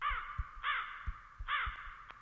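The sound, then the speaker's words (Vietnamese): Crows caw after being startled into flight by horse hooves. Three harsh, loud caws come at a fairly even pace, with short gaps between them. “bầy quạ bị tiếng vó ngựa dọa làm cho sợ hãi bay lên không trung, cất lên những tiếng kêu ai oán hỗn loạn.”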